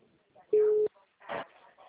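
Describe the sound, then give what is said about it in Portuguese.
A single short, steady electronic tone on a phone call, the bank's registration confirmation signal, mid-pitched and clearly louder than the line noise, with brief voice-like sound after it. “O toque de confirmação de cadastro para confirmar que é você para sua segurança.”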